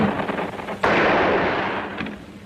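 A single loud gunshot-like blast of wartime gunfire bursts out sharply and decays slowly into a rumbling tail, with faint crackle before it and a softer pop near the end.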